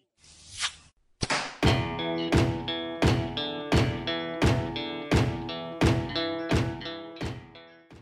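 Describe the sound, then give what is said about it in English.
Arrow shot from a bow into a target in a garage, with the microphone right by the target: a noisy opening burst, then a long series of evenly spaced, resonant thunks with ringing tails. “Fun fact about that sound effect, I made that myself in my garage by shooting my bow at a target. I put a mic right by the target, so that's where that came from.”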